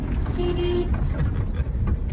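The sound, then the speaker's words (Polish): A car horn honks in a short blast over a loud, steady rumble of engine and road noise. “Trąbi na wszystkich. Płoszy zwierzęta, ptaki.”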